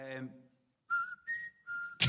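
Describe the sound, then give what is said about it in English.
A short whistled tune of a few clear, pure notes that steps up and then back down, following a brief speaking voice at the start. “We just happened to fucking whistle that tune.”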